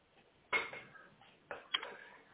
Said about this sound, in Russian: Блин, не могу сосредоточиться, ложками стучать.